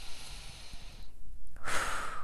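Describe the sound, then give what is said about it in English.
A deep breath: a faint airy stretch, a short hush, then a louder, fuller rush of breath that carries on to the end. “All right, one more breath.”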